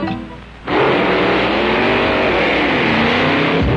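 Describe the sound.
A car accelerates out of a parking lot, its engine roar surging in abruptly after a brief quieter opening, then holding loud and steady as it pulls away.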